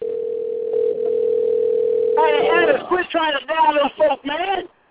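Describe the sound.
A telephone dial tone, a steady single-pitched hum lasting roughly two and a half seconds, which stops as people begin talking over it.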